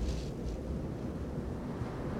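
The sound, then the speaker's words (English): Cold wind blowing in through an opened cabin door, a steady, low roaring rush with no distinct events. “And then he turns to the door and opens and lets the cold wind in into the cabin.”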